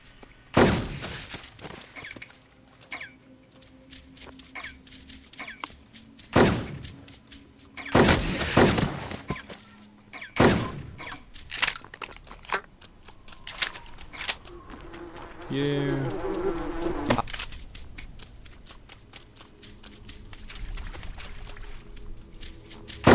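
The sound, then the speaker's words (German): Benelli shotgun fire in a video game, aimed at creatures: several loud, sharp blasts come at irregular intervals, some with a crackling tail, among quieter game sounds while people talk throughout. “du mit deiner was auch immer lockst die Dinger an und ich schieß sie ab. Benelli nennt man das.”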